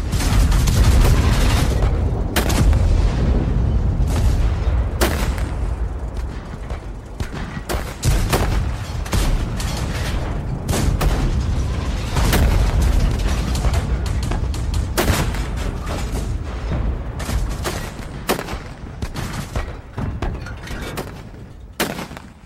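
Guns firing at a flying saucer: a loud, sustained barrage of many sharp blasts and heavy booms over a continuous low rumble, with no voices.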